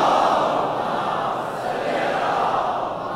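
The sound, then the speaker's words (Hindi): A crowd recites salawat aloud in unison at a religious gathering: a dense, sustained chorus of many voices that holds at a steady, loud level throughout with no pauses. “बुलंद आवाज से सलवात इनायत फरमाइए मोहम्मद वाले।”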